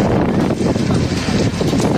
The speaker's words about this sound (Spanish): Esto que escuchamos, el viento,